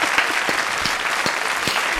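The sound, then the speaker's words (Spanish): Audience applause follows a poem recitation, bright steady clapping from a group that stays even and fairly loud throughout, with scattered sharper individual claps standing out and no voices over it. “Le vamos a dar un aplauso, oiga, a usted, le vamos a dar un aplauso.”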